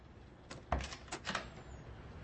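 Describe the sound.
A door being closed makes a few faint knocks and thuds, with one heavier low thump near the middle, amid quiet background noise.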